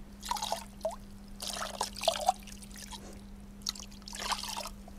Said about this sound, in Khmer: ហើយយើងត្រូវការយកទឹកត្រជាក់ដើម្បីនឹងលាងជើងអ្នកជំងឺរបស់យើង